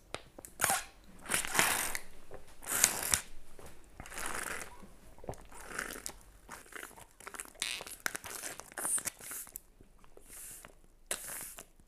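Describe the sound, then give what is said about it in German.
Crinkling and crackling of an aluminium Capri-Sonne drink pouch being squeezed, a fairly faint run of irregular crisp crackles and crunches that lasts throughout without speech. “Ob diese Aluminiumverpackung von Capri-Sonne schlimmer ist oder die von Nespresso-Kapseln. Ah, jetzt drücken.”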